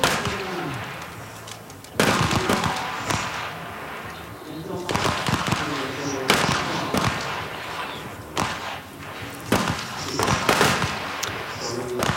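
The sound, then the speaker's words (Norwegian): Rifle trial shots at a shooting competition qualifying for a king's team final: several sharp, loud cracks spaced irregularly over a steady background. “altså prøveskuddet er i gang nå da”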